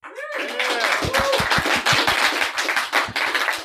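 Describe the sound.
An audience claps to welcome a guest onto a show, with a burst of many sharp, overlapping hand claps that stays fairly loud and even throughout, briefly joined by a voice near the start.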